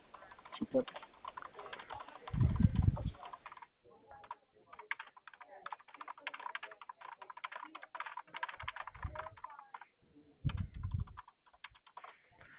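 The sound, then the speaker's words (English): Computer keyboard keys clatter in quick, uneven bursts of typing during a phone call with a customer. Stretches of clicking alternate with short pauses, and a voice talks at times between the bursts. “I'm just getting this typed up, and I'll call the customer to confirm.”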